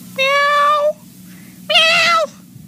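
A person imitates a cat, giving two drawn-out, tonal meows separated by a short pause. The second is a little louder and brighter than the first.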